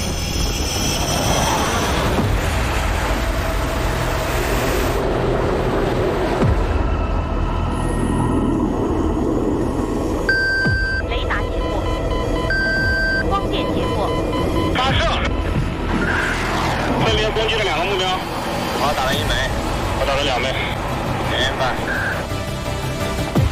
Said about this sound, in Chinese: 三号位，预计起飞。 可以起飞。